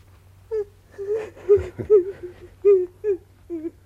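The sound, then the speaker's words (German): A woman weeps for her son in a string of short, breathy, whimpering sobs and whining wails, rising and falling in uneven bursts over a low steady hum. “Sie weinte. Noch bevor ich da war, hatte sie geweint. Um mich geweint.”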